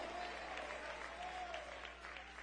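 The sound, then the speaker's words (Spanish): A church audience applauds, a dense, steady wash of many hands clapping at moderate loudness with faint voices mixed in. “Dele ese aplauso de gloria al Cristo resucitado.”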